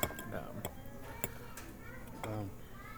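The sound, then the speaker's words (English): Cutlery and dishes clink sparsely over breakfast of pancakes with fudge, strawberry and whipped cream, eggs, sausage and bacon; sharp, faint ticks of metal on plates sit under steady conversation. “I'm just curious to see if people are really into listening to us eat.”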